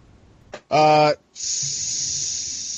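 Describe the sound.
A person imitates a sizzling hiss with the voice: a tiny click and a short voiced grunt, then a long, steady, bright hiss held to the end.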